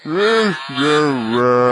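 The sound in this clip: A human voice imitates a cow mooing with two loud, drawn-out, nasal moos. The second is longer and wavers slightly in pitch.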